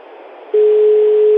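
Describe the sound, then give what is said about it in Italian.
Telephone ringback tone on an outgoing call to a villa in Bari. Faint line hiss gives way to a loud, steady single-pitch tone that holds unbroken to the end. “Cos'è questo? È il rumore del cellulare. Lo squillo del cellulare dell'onorevole Gaglione. No, il diretto di Villa Bianca a Bari.”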